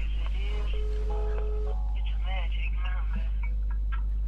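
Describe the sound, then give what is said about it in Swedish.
A phone rings with a short steady electronic tone, heard under people talking over a constant low hum. “Jag tror det var din telefon.”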